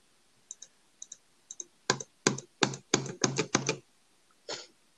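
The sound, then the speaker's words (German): Typing on a computer keyboard: a few soft paired clicks, then a quicker run of louder, sharper keystrokes, ending with one fainter tap. “Wieso tippst du da?”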